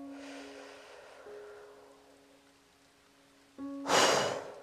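A single mouth breath in and out near the end, rising into a loud, rushing airy burst after a long stretch of a soft, steady sustained tone.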